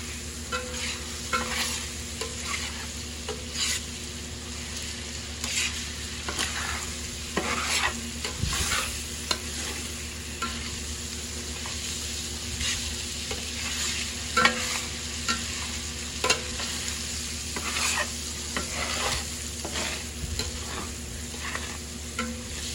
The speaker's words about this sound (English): Let's mix it all over again.